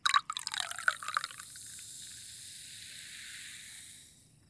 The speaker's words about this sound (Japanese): 今度は私が左耳の近くで注いであげる。